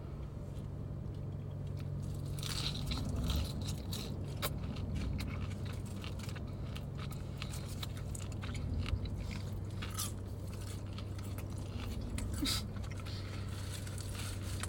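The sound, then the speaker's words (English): Faint crunching and chewing as someone bites into a sandwich with pickle: many soft, crisp clicks and smacks scattered across the whole stretch over a low, steady hum. “Let's have a bite with some pickle.”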